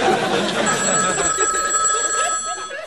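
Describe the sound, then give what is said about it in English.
A telephone rings for a call from a car phone: a bright electronic ring over dense, noisy background sound, with voices mixed in. “Hello? It's Kelly on her car phone, Dad.”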